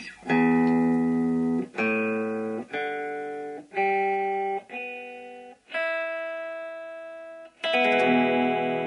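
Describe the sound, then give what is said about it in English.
An electric guitar rings out in seven strummed chords, each left to sustain and fade before the next strong attack. “Now what you just heard was an electric guitar, probably not an unfamiliar sound to many people”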